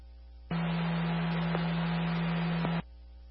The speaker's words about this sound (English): Cancellation tones 131 can disregard. 131, cancellation tones, disregard the call at 1232 Northwest Grant Avenue.